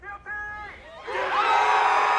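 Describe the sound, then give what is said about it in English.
A crowd in downtown Minneapolis roars and cheers at a guilty verdict read in the Hennepin County Government Center. A short spoken phrase comes first, then a loud, sustained swell of jubilant shouting. “The crowd roared with jubilation as Judge Peter Cahill read the verdict in the courtroom, 18 floors above them in the Hennepin County Government Center.”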